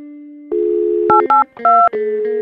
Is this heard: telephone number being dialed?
yes